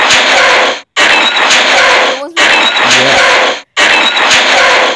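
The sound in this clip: A voice imitates a tall, legged Star Wars ground vehicle on the planet Hoth with four loud, hissing, noisy bursts separated by short gaps.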